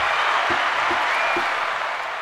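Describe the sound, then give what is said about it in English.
Brief applause from an audience, a dense, steady patter of many clapping hands that stays fairly loud and even across the whole short burst, with no voices. “Short applause, though. Short applause. Could have been longer.”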